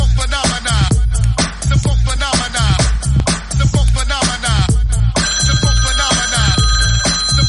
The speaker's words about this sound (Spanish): Ah, llamada, llamada, llamada.